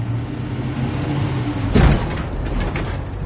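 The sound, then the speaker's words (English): A Volvo car backs out of a driveway with a steady, low engine rumble. A dull thump breaks in partway through, and then the engine noise carries on. “He carries his duffel bag to the Volvo. He throws the duffel bag in the back seat. Nitram backs the car out of the driveway.”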